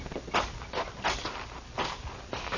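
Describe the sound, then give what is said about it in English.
Footsteps walk toward a gate, a faint, steady series of several soft steps with a regular rhythm. “I'll walk you to the gate, Marshal.”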